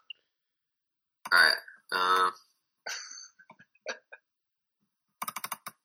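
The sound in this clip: Fingers type on a computer keyboard, entering a search. A short, quick run of light clicks comes near the end, after several louder, fuller sounds.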